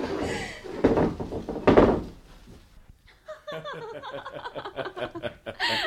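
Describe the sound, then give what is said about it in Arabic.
A door being shut and locked from the outside: two loud, heavy bangs land in the first two seconds, followed by a longer stretch of quieter, busier rattling sound. “ما تخافش يا زقزوق، أنا هقفل عليك الباب من برا عشان ما حدش يشوفك بالمرة.”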